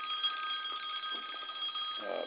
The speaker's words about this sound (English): Goddamn phone.